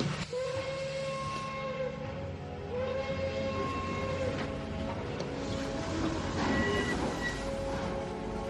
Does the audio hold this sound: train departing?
yes